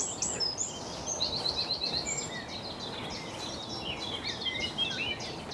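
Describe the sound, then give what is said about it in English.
Songbirds warble and chirp along a lane that fades into a grassy track below a huge retaining wall, with blackbirds, chiffchaffs, blackcaps and wrens singing. The overlapping phrases run continuously over a low steady background. “Just the warbles of blackbirds, chiff-chaffs, blackcaps. And wrens.”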